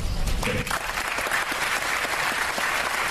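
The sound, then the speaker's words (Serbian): Lengthy applause from an audience in a lecture hall at Dom kulture Studentski grad, following a philosopher's answers: thick, continuous clapping from many hands that keeps an even, full level from start to finish. “Ovaj aplauz je trajao jako dugo i... Bilo je zaista dosta aplauza povodom odgovora koje je Alan Badiou dao prisutnima u Domu kulture Studentski grad.”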